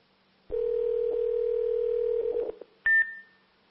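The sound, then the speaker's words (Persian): Steady low dial tone hums for about two seconds while a telephone number is dialed, with a few faint keypad blips near the end. A short, higher tone then sounds and trails away. “دوستان اتاق فرمان میگن برای بار چهارم دارن تماس میگیرن ولی کسی پاسخگو نیست.”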